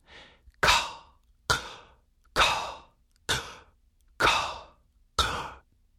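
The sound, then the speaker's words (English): Whispered, voiceless "caw" sounds made on a whispered exhale and inhale as a vocal-relaxation exercise. Six loud breathy bursts come at an even pace, each with a sharp onset and a fading hiss, after one faint short breath. “A trick to calming your voice down is to make what's called a voiceless caw sound. Say the word caw on a whispered exhale, and then say it again on a whispered inhale, like this.”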